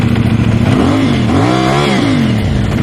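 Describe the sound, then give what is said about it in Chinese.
A vehicle with an illegally modified, non-factory loud exhaust revs hard. Its constant heavy roar climbs and drops in pitch twice as the throttle is blipped, with no voices. “大家可以听到它这个排气的声音是非常的大，这种车辆在行驶在路上的时候，只要你轻微的一给油一提速，”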